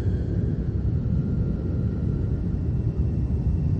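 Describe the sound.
Steady low rumble inside an airplane cabin in flight, with pilots at the controls. A dense, even drone sits in the bass with a faint hiss above it. There are no voices and no distinct events.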